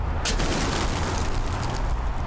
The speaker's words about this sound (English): a net gun. It looks kind of like a long black flashlight, but it shoots out a net, capturing as many as 13 pigeons in a shot, on a good day.